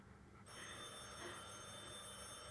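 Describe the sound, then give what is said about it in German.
A telephone bell ringing, starting abruptly after a brief quiet moment and continuing as a steady, sustained metallic ring, fairly faint. “Telefon. Soll ich hingehen?”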